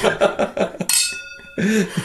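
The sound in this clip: Wine glasses of red Médoc wine clink once in a toast, a bright, ringing chime that sustains and fades over about half a second, with people talking before and after.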